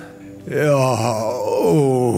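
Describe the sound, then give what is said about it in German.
A sauna-goer lets out deep, drawn-out groans and moans with each breath. The voice is loud and sustained, dipping and then rising in pitch across two long moaning sounds. “Direkt danach kommt der Dauerstöhner. Bei ihm wird jeder Atemzug von einem tiefen, langgezogenen Seufzen und Stöhnen begleitet.”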